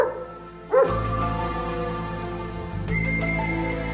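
A mongrel dog gives a single short bark, heard once against continuous music.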